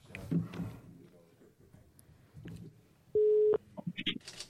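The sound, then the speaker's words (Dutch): A telephone call being placed: faint voices and murmur give way to a loud, steady tone of about a third of a second, followed by a few short, higher beeps. “Gaan we even mee bellen om te vragen hoe het met Excelsior is.”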